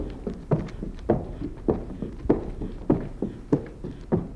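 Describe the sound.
Hooves of a horse walking while being ridden: a regular clip-clop of evenly spaced thuds, about one every 0.6 seconds, moderately loud and steady, with no voices.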